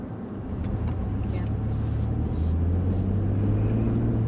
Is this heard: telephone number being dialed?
no